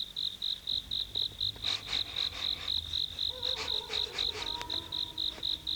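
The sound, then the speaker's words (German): Cricket chirping on a warm summer night, a rapid, steady train of high-pitched pulses repeating many times at an even rhythm over faint background noise. “Ganz in der Nähe zirpte eine Grille.”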